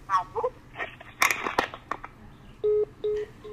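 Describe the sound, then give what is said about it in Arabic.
Disconnected-line tone after a dropped phone call: a few faint clicks and bits of line noise, then two steady, flat beeps of the same pitch, separated by a short gap. “انقطع الاتصال معليش دوك نعاودو كنعاودو نستقبلو اتصال واحد اخر”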